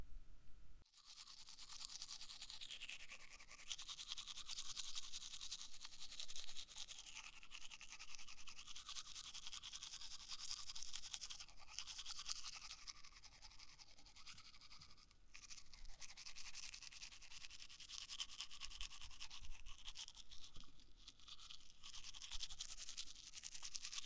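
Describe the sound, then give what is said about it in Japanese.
A toothbrush scrubs the front teeth in a steady, soft, bristly rasp of quick repeated strokes. It is faint and continues for over twenty seconds without pause. “前歯を磨くから、いいってして。”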